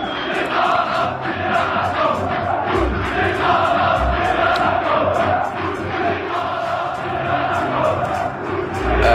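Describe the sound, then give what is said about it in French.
Football supporters chant in the Hamadi stadium in Algiers: a loud, dense crowd of voices keeps up a continuous, rhythmic chant throughout, with no pause. “Alors, faut quand même expliquer que ça se passe dans un stade d'Alger. C'est le stade Hamadi. C'était le 13 février dernier. Et les supporters chantent Bouteflika Rabiya Rahmous,”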